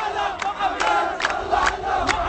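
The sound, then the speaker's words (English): Crowd of Iraqi residents in Khalat Sukr, southern Iraq, shouting and cheering U.S. Marines at their perimeter, with a few loud, regularly spaced vocal bursts rising above a continuous rumble of massed voices. “a mass of residents crowded up against the perimeter of U.S. Marines, cheering them and offering praise to Allah.”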